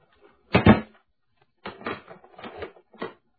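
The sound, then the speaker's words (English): A door lock clicking shut on a small room's door: one loud mechanical clunk, then after a pause a few shorter rattling clicks, with no voices. “The click of the lock was an unpleasant sound somehow.”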